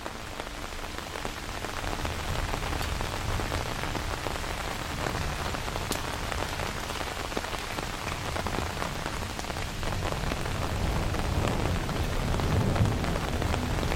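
Steady rain falling, a dense continuous hiss of drops that holds an even level and swells slightly toward the end.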